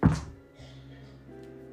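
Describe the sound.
A d20 die lands on a table during a Dungeons & Dragons game with a single dull thunk that quickly decays into a faint, quiet tail.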